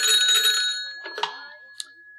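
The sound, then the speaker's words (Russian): Telephone ringing in an office on the 130th floor: a bright, metallic bell tone that rings steadily and then decays, followed by a few sharper chiming strikes that fade out, with no voices. “И вот однажды в его кабинете на 130-м этаже раздался телефонный звонок.”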